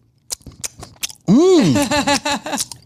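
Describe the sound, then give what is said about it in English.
A person vocally imitates loud smacking while eating. Several sharp, wet mouth clicks come first, then a loud, wavering hummed vocal sound runs to the end. “Smack on it a little more, you can really tell how good. So I'm going to show you how he was eating it, okay?”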